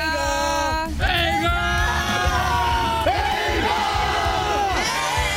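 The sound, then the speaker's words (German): A festival campsite crowd shouts between songs: many voices yell and whoop together in a loud, continuous roar, with drawn-out cries that waver up and down and fresh bursts of shouting breaking in throughout. “Immer darauf achten, wenn der legendäre Helga Zeltplatz ruft, zwischen zwei Songs durch das Programm wabbelt. Wollen wir doch mal reinhören, wie das dann immer klingt?”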